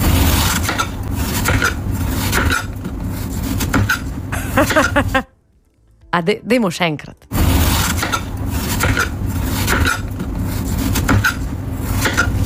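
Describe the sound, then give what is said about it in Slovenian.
A knife cutting into a watermelon gives a steady crunchy, rasping scrape that breaks off for a short spoken phrase in the middle, then starts again. “Ja, to je zvok rezanja lubenice.”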